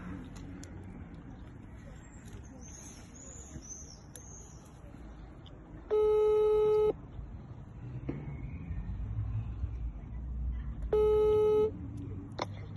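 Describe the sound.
Ringback tone of a phone call placed from another phone: two tone bursts about one second long, roughly five seconds apart, over steady outdoor background noise with faint high chirps.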